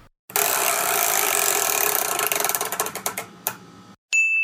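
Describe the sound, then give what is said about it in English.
A spinning game wheel clicks against its ratchet: rapid, dense clicking that gradually slows into distinct, separate clicks and stops, followed by a brief ringing tone. “would you mind spinning the wheel?”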